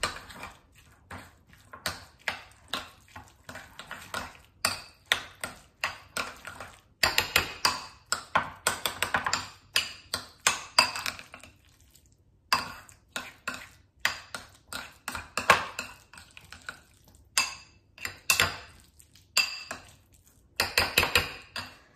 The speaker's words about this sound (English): now I'm going to squeeze or juice this lime. Okay, now I'm going to mix this all up.